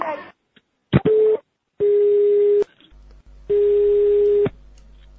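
Telephone call tones from a prank call to a gopnik: steady mid-pitched beeps in bursts, a short one and then two long ones separated by silences, with no talk over them.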